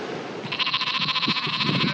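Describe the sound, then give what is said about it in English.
A sheep bleats on an island farm on Ireland's Atlantic coast: one long, wavering, quavering bleat begins after a brief quieter moment and holds steady to the end over a low background rumble. “There are more sheep than people here.”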